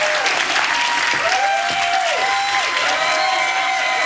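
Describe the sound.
Audience applause welcoming speakers onto the stage at a Johns Hopkins Bloomberg Center evening program, a loud, continuous roar of clapping that holds steady from start to finish.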